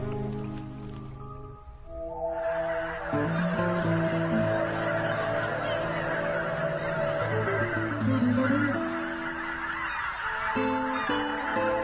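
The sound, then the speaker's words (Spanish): Geese honk as a flock returns in spring, a dense, continuous chorus of overlapping nasal calls that stays loud throughout, with a steady hiss underneath. “El regreso de los gansos anuncia la llegada de otra primavera.”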